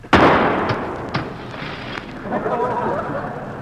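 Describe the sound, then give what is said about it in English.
A rifle shot during target shooting: one loud, sharp crack at the start that decays into a rumbling tail, followed by a couple of faint knocks. “I can't get used to this strange rifle. Come on, Jackson, quit stalling. Okay, here goes.”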